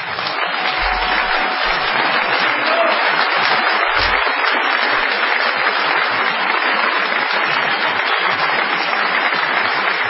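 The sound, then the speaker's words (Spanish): A theatre audience applauds at the end of a performance, a dense, even roar of clapping that holds steady for about ten seconds without a break. “esto que ahora ustedes sienten como un aplauso y que para nosotros es lo que veníamos a ver.”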